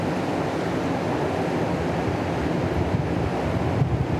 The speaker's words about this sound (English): And the wind is also participating in the creation of this beautiful texture. And we are here with the river flowing